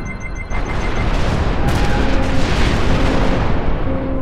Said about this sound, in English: Fire when ready, Mr. Borte.